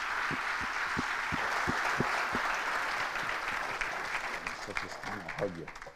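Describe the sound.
A church audience applauds to welcome a speaker, a steady, full crowd clapping with regular low thumps beating through the first half. A voice breaks in over the clapping near the end as it tapers off.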